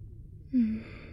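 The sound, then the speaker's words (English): A single slow, deep breath drawn during an examination, short and faint, rising briefly out of near silence and fading within a fraction of a second. “Just take a slow, deep breath in for me, okay?”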